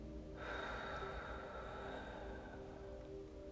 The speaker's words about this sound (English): take a long, deep breath in and a long, deep breath out.